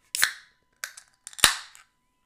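A beer can is cracked open with a few sharp, isolated snaps and clicks. The loudest pop trails off into a short fizzing hiss, with no talk.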